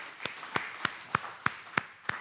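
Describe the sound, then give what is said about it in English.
A church audience clapping hands in unison, with seven sharp, crisp claps at a steady, even beat over a quiet background. “Go ahead, give the Lord a hand clap.”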